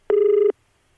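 Telephone ringback on an outgoing call: a single short, steady buzzing tone that cuts off abruptly, followed by silence.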